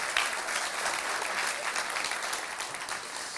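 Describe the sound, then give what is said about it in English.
Steady applause from a church audience welcoming a guest, a dense, even wash of clapping that holds at one level for the whole stretch with no voices over it. “So can we give him a good hand to welcome him? Oh, thank you.”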